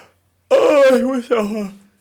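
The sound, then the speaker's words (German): A loud, overdriven and distorted human yawn, voiced and drawn out in two parts with a brief break between them. It sounds harsh and clipped throughout. “Ich glaube, der Gähner war so übersteuert, der ist bei mir völlig sonst wohin von der Kurve gegangen.”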